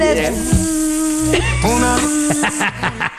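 Flies buzz in a loud, continuous whining drone whose pitch wavers and glides up and down, with a few fluttering breaks near the end.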